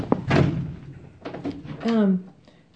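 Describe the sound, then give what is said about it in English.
A window is opened with a single short thunk at the very start, followed by people talking. “would somebody open a window somewhere? Thank you.”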